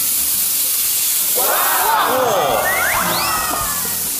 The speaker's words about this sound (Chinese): 炒香的豆瓣酱，烹入黄酒。